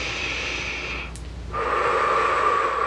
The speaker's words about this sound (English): begin by taking a few nice deep breaths in through your nose,